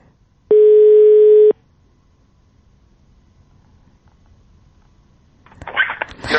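A telephone tone while placing a call: one steady, unbroken electronic tone lasting about a second, then a near-silent line, and a short burst of rustling noise at the end.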